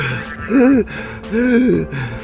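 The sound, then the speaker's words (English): Strained, voiced gasping from a man who has collapsed after a toxic gas leak and is struggling for air; two drawn-out, wavering breaths in a row, each rising and falling in pitch, separated by a short pause. “the guy sort of, like, crumbles to the ground, and he's, like, just struggling to breathe, and he's finally getting to breathe the right stuff”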